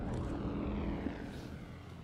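A rescue drone flies with a steady whirring propeller hum that holds at a fairly even level and eases slightly toward the end, with no voices.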